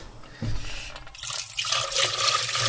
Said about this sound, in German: So, dann schön abspülen.